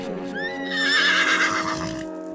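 A white horse neighs in one long, shrill, wavering whinny that swells and then tapers off, heard on its own.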